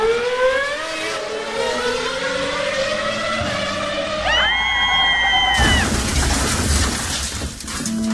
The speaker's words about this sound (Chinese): 看我油门吹下去，你还笑不笑得出来？